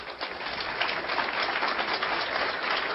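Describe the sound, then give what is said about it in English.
Audience applause welcoming a speaker to the stage: a dense, steady wash of clapping that holds at an even level throughout, with no voices standing out. “And please help me give a warm hand of welcome to our next speaker, Captain Joyce Riley.”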